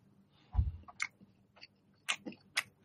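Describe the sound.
Chewing of a coconut mooncake: several crunchy, moist bites and mouth clicks, with a heavier bite near the start and lighter crunches after it. There is no speech.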